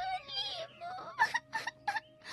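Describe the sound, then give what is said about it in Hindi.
A young girl cries, breaking from a longer wavering wail into a few short, high sobbing bursts, quiet and with no other sound around her. “खेलते खेलते उसे थका दिया, लेकिन लीमू नहीं दिया। लड़की तंग आकर रो पड़ी।”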